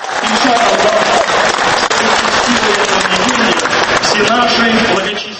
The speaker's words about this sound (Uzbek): Ravil G'aynuddin bu tabrikdan keyin Sergey Sobyanin boshqarayotgan Moskva hokimiyati kuni kecha jome masjidi qurilishini davom ettirishga ruxsat berganini ovoza qilishi bilan gulduros qarsaklar yangradi.